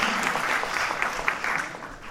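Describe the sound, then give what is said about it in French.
Audience applause: a brief stretch of dense, steady clapping, fairly loud and even throughout its roughly two seconds. “Vous pouvez pas m'applaudir à la fin de mes phrases, s'il vous plaît”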